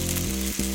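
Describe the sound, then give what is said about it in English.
Steak sears in its juices on a Weber Searwood pellet grill, giving a steady, loud crackling sizzle with a faint low hum beneath and one brief dip partway through. “That's the sound of steak searing in its juices on your new pellet grill. You heard that right. The Weber Searwood Pellet Grill can smoke low and slow at 180 degrees”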